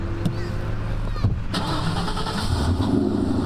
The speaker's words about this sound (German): Ich probiere mal, ob er anspringt.